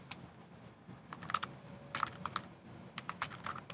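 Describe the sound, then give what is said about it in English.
Typing on a computer keyboard: crisp key clicks come in a few uneven bursts with short pauses between. Quiet and alone, with no talk. “And in our share, the O365 deploy, I'm going to type the following: Notepad”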